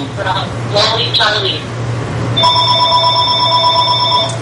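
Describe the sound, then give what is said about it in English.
A telephone rings with a steady electronic tone that starts after a brief stretch of talk and carries on alone over a low hum. “sorry about the phone. It should stop.”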